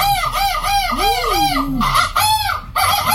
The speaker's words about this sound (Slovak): Premýšľali ste niekedy nad tým, ako by to asi vyzeralo, keby chlapi vábili ženy podobne napríklad ako vtáky? Na každom kroku by to znelo takto?